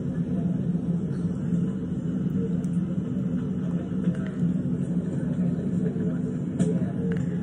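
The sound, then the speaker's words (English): Steady low airplane cabin rumble while waiting for takeoff on a flight to New York, a dense, unbroken drone that holds even in loudness throughout. “Butts in the seats, guys. We're getting ready to take off, so.”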